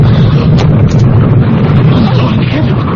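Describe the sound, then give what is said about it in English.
In a radio drama, a mailbox explodes with a heavy, roaring boom whose dense, low rumble stays loud and unbroken for the whole stretch. “Oh, the mail post. It blew up. Oh, it exploded.”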